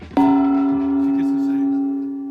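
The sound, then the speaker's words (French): A single gong struck during a panel game show, one sharp hit that leaves a bright, sustained ringing tone slowly fading over about two seconds. “Un gong”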